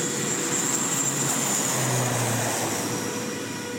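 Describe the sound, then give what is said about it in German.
A small propeller plane flies the route from Funafuti, Tuvalu's main atoll, to Fiji, giving a steady, unbroken droning hum with a faint tonal whine that holds nearly level and eases slightly at the end. “Eine kleine Propellermaschine fliegt 3 bis 4 Mal pro Woche vom Hauptatoll Funafuti nach Fidschi und zurück.”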